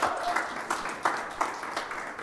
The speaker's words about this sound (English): So you guys give Kim a hand. Yay!